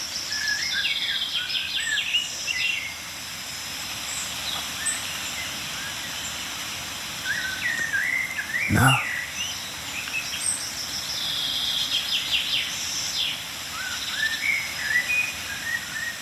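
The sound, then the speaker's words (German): Calls of a blackbird, a chaffinch and tits sound as faint, high chirps and short trills scattered over a steady outdoor hiss, with one sharp click near the middle. “Amsel, Buchfink, Meisenrufer.”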